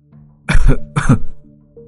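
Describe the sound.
A man coughs harshly in two loud, rough bursts close together, then falls quiet.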